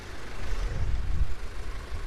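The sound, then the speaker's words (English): Flatbed trucks driving past on a busy street corner in Rabaul, a provincial capital: a steady, low engine rumble that swells slightly in the middle and eases toward the end, with no voices. “It's late afternoon and dozens of flatbed trucks whiz by in the thick tropical heat.”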